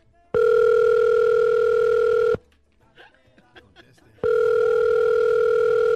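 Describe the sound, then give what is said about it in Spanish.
Ringback of an outgoing telephone call: two long, steady ringing tones about two seconds each, separated by a quiet pause with faint scattered sounds. “Déjame llamarle a Puyo otra vez para que no vaya a quedar en vergüenza aquí.”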